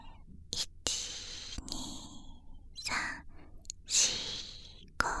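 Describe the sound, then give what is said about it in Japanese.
Soft breathy exhales and inhales during a paced, counted breathing exercise: several quiet airy puffs and sighs separated by near silence, slow and unhurried. “息を吸って、1、2、3、吐いて、”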